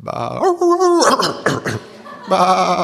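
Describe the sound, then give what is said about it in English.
A voice imitates a sheep's bleat: a few wavering, quavering bah-like calls with brief breaks between them, fairly loud, with some quick voiced chatter in the middle. “They'll try to sound like sheep. Although if you listen carefully, sometimes you can tell a difference. They'll go,”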